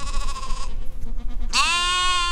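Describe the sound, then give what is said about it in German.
Sheep and goats bleat in a farmyard around a parked VW bus, with two loud, wavering bleats, one at the start and a stronger, higher one later, over a low background hum. “Um den Bus herum Hühner, Katzen, Schafe und Ziegen.”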